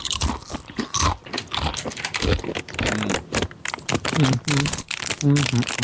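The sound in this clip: Crunchy bites of food fill the track with many crisp, crackling bursts and chewing noises in an irregular rhythm, loud throughout, with some murmured vocal sounds in the latter part.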